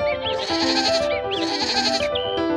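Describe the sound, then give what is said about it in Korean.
Goats bleating in a meadow, a couple of long, wavering, nasal bleats over a steady tonal background. “하이디는 피터와 염소와 함께 초원에 가며 하루하루를 즐겁게 보냈어요.”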